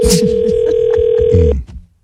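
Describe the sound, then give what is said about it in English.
A telephone ringing during a call: a single steady electronic tone holding for about a second and a half before cutting off abruptly, with a short noisy burst at the very start. “guess you need to pick up the phone.”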